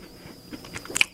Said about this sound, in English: All right. I'm taking my first bite of a Pop-Tart.